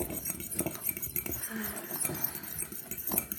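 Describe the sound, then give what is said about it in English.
A fork whisks ingredients, including salt, together in a dish, making quick, light, steady clinks and scrapes against the sides for a few seconds at low volume. “So I'm just going to whisk that together real quick with my fork.”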